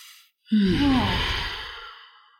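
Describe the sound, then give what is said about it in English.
A group takes one deep breath together. There is a brief quiet, then a loud, drawn-out sigh of air that slowly fades. “Everybody is going to take a deep breath.”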